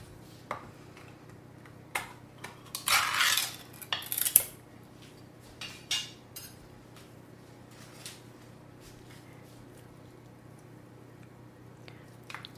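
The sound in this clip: Spoon clinking and scraping in a bowl while canned tuna is mixed with oil for a tuna spread: scattered light taps and clicks, with a short, wetter scraping burst partway through, faint and without talk.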